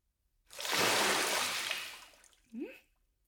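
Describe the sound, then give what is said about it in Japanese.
Hot water is poured over a person sitting in a bath in one steady rushing pour lasting about two seconds that tapers away, followed by a brief soft trailing sound. “それじゃあ、あなたにもお湯をかけるわね。”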